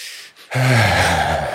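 A deep inhale follows a brief quiet pause and comes as a loud, breathy rush of air that holds for about a second.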